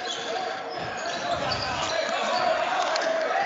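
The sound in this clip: A basketball is dribbled on the court during a game, its bounces blending into steady crowd murmur and court noise with no distinct, countable thumps.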